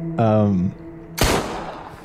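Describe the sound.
A shotgun blast sound effect played from a soundboard: one sharp, loud boom with a short, rough decaying tail, preceded by a brief voiced sound.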